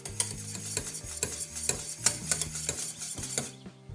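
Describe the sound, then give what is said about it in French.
A metal whisk beating melting caramel in a pan for donuts, with many quick rhythmic strokes that clink and scrape against the pan with ringing metallic tones, stopping abruptly near the end into a brief quiet. “Je fouette, je fouette.”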